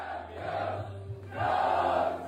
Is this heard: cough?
no